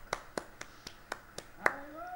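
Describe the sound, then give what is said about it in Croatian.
A church audience claps in praise to the Lord: seven sharp, evenly spaced claps at a brisk steady beat, fairly faint, and a voice begins just after the final clap. “Haleluja. Da plješćemo Gospodu.”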